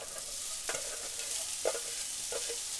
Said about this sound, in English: So I got my mushrooms in half the pan. Now I'm going to add my onions to the other half to get them started.